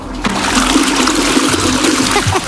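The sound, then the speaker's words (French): A toilet flushes in a loud, steady rush of swirling water that gurgles and splashes for about two and a half seconds, then trails into a brief trickle at the end. “Et tu nous prouves en tirant la chasse que t'es bien aux toilettes, hein, tu triches pas.”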